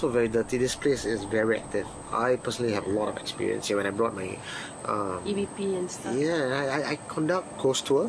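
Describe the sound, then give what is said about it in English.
Crickets chirp at night in the deserted Pasir Ris mangrove swamp by dark water, a thin steady high trill running faintly beneath a person talking throughout. “dark area near the water, Pasir Ris, mangrove swamp, totally deserted. You can even hear the crickets in the background,”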